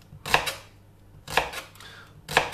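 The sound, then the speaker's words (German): A knife chops a vegetable into half rings: three crisp, evenly spaced cuts, each a sharp thunk with a short tail and quiet between them. “Und dann schneidest du erstmal diese halbe Ringe runter.”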